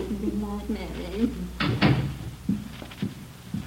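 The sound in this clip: A door opens or closes with one sharp thump midway, amid people talking before and after, followed by a few softer knocks.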